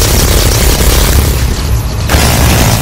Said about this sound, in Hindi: अभी तक 1200 गोले फायर हुए हैं, 2 मजीद टारगेट्स की तबाही कंफर्म है।